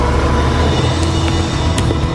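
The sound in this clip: A car driving off, heard as a loud, steady engine rumble that stays even throughout.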